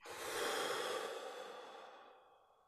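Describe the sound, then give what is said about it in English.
A deep breath: one long, airy rush of air that swells quickly, then fades slowly into quiet, soft and alone with no talking. “So just take a big deep breath in. Just okay. Fill up as much as you possibly can. And then let it go.”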